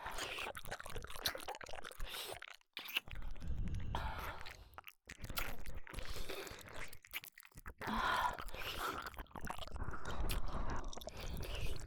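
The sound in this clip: Close chewing and eating: soft, continuous wet mouth noises with biting and crunching textures, quiet throughout, with no talk.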